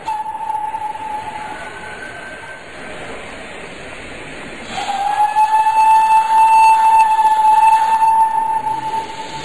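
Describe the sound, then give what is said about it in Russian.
Steam locomotive whistling and releasing steam as the train starts off: a sustained, steady whistle tone over a constant rail rumble, with the sound growing louder and hissier partway through, then continuing. “Вот паровоз пустил пар, и поезд тронулся.”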